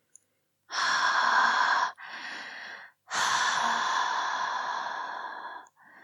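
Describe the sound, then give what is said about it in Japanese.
Heavy, breathy panting exhaled close toward the listener's nose: three long, loud, rasping exhalations separated by short gaps, with another breath starting at the very end, and no talking. “臭い息、鼻先にいっぱい吐きかけてあげる。”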